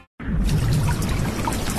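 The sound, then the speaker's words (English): Water leaks through a roof, pouring and trickling in a continuous splashing stream. It starts abruptly after a brief silence and stays loud and steady throughout. “My roof is leaking.”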